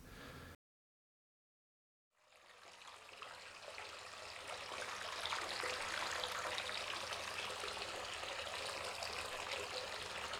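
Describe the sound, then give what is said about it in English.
A hot bath is run from the tap. After a short silent gap, a steady, broad rush of flowing water swells up and then holds evenly, fairly quiet, with no voices. “And this is the sound of a hot bath being run for the soothing of cyclist limbs”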